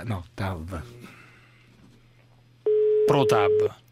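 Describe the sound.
A telephone call sounds a single steady, even ringing tone that lasts about a second. People talk before it and over it.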